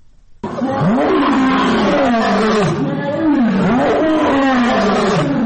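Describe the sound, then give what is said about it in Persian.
Lion roaring: a series of deep, throaty grunting roars, each swelling and falling in a rhythmic pattern, loud and alone after a quiet start. “این صدای غرش یک شیر است”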